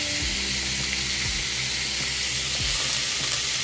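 Stir-frying in butter with a loud, steady sizzle and hiss throughout, and a few soft, low knocks from stirring underneath.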